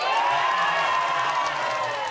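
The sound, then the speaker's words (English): Applause and cheering from a crowd in a laboratory watching a Nobel Prize announcement, a dense, continuous roar of clapping and voices at steady loudness throughout. “the place erupted into huge applause”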